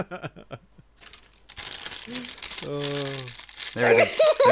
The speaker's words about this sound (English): I can hear him making the aluminum foil into the hat right now.